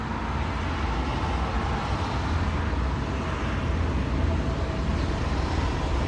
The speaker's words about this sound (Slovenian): Zvok tramvaja v zavoju.